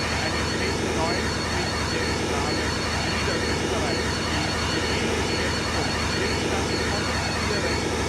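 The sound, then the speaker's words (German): DC-9 jet airliner engines running on an airport apron, a loud, dense, unbroken roar that stays steady throughout. “Die Triebwerke werden Gott sei Dank abgeschaltet”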